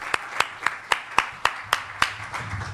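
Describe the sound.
Eight crisp, evenly spaced hand claps at a slow, steady pace, welcoming a speaker at a short talk event, with nothing else in between.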